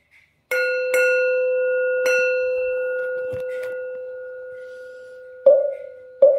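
A temple bell struck several times in a Zen setting, each strike giving a bright metallic clang. It settles into a long, steady ringing hum that slowly fades before two fresh, louder strikes near the end.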